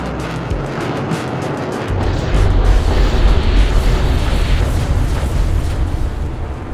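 Bombs explode after being dropped on a city during the 1945 air raid on Tokyo, a loud continuous roar of rumbling blasts that grows heavier and deeper partway through and keeps going without a break.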